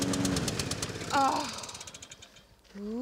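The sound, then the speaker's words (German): A lawn mower engine runs with a rhythmic, knocking chug while mowing a long stretch, then fades toward quiet. “Es wird wieder ruhig. Hat aber schon ein bisschen was Meditatives mit dem Mähen, ne?”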